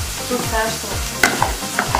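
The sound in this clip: Food sizzles in a frying pan, a continuous hissing crackle layered with rhythmic scraping from stirring and a few sharp clicks near the end.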